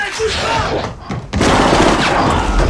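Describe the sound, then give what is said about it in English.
Gunfire as a police officer opens fire: a loud, dense volley of shots, a brief lull, then another sustained, heavy burst of firing. “The other cop reacts and opens fire as Derek jumps to his feet and starts running.”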